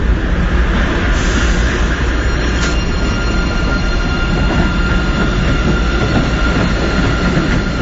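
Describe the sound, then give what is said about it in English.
A train pulls out of a station with a loud, steady rolling rumble, while faint sustained high squeals ride over the wheel noise like violin tones. “there is also a violin that arises from the train as it leaves the station”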